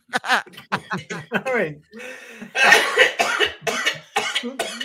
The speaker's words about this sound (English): coughing very hard